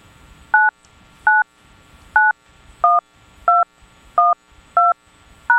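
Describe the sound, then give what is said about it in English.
Eight telephone keypad tones beep as a passcode is entered for a conference call line. Each is a short, clear, two-pitched beep, spaced almost evenly, with faint background noise between them. “Please enter your passcode followed by the pound or hash key, and I'll connect you.”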